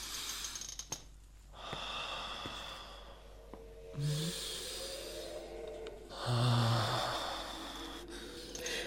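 Slow, deep breaths, each a long soft breathy rush in and out, taken with eyes closed and back held straight; a few drawn-out breaths follow one another at a calm, even pace, fairly faint and with no talk.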